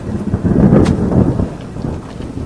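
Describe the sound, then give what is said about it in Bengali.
Thunder rolls through a rainstorm, a loud, deep rumble that swells and lingers over a steady wash of falling rain. “বিদ্যুৎ চমক দীর্ঘস্থায়ী হচ্ছে না”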